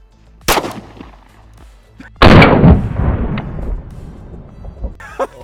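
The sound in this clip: Pistol gunshots in a shooter video game: two sharp, loud cracks, the second trailing into a long rumbling decay, with a few fainter clicks and thuds around them.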